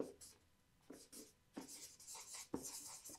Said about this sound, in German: Ich schreibe das mal hier auf.